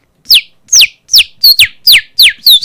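A man whistles an imitation of a saffron finch song: a quick series of short, high, sharply falling whistled notes in a fairly even rhythm, a couple of them doubled, with no talking.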